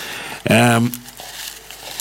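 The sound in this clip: Papery crinkling and rustling as packs of scratch lottery tickets are shuffled, a soft continuous shuffle running through the whole stretch.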